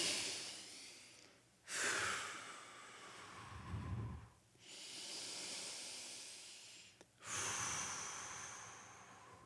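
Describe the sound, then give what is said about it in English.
Slow, deep breathing during a group prayer pause: about three long, airy, hissing breaths drawn in and let out, steady and quiet, with short gaps between them. “If you take a deep breath.”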